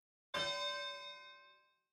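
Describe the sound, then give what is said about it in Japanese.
A single bell strike signals the start of a match in an arena, a bright, clear ding that rings on and fades away over about a second and a half. “始まりの鐘が鳴ったね。”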